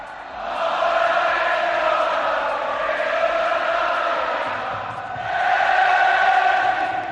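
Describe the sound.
Over 10,000 fans roar at an open Real Betis training session in the Benito Villamarín stadium, a sustained, loud crowd din of voices that dips briefly near the end before swelling back up.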